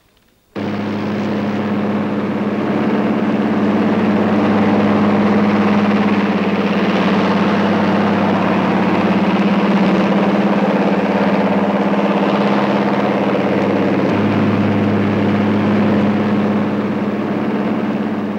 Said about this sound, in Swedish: står här och överblickar fältet för att konstatera om de unga herrarna startar de tunga bombarna mönstergilt.